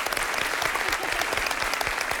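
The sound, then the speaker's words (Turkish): Applause from a quiz-show audience: a dense, steady patter of many hands clapping at an even, loud level throughout the brief stretch, with no talk. “Alkışlıyorum.”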